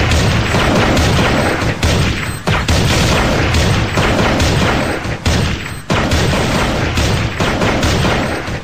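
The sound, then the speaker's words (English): Explosion of a big glowing red bomb in the Counter-Strike video game: a loud, dense booming roar that fills the whole stretch, with only a few brief dips in level and no talk over it. “It's a big bomb type thing which someone has just... It's glowing red. Will it make a big noise? Yeah, it should go boom.”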